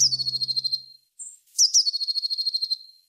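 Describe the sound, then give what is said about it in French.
A blue tit sings high, thin, piercing notes that run into rapid, even trills. Two bursts of song are split by a short gap, with a brief whistle-like note in between. “Alors peut-être que vous avez déjà entendu ce chant, c'est celui de la Mésange Bleue.”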